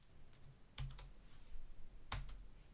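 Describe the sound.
Faint computer keyboard typing, with a few sharp keystroke clicks spaced irregularly over a low, steady background hiss.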